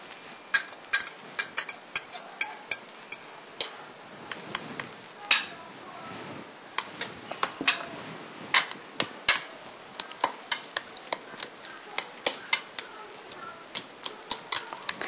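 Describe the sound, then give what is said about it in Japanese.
Light clinks and taps of a utensil against a bowl as chopped mint and parsley are added in a kitchen. Many small irregular clicks sound at moderate loudness over a soft background. “みじん切りにしたミントとパセリを加えます。”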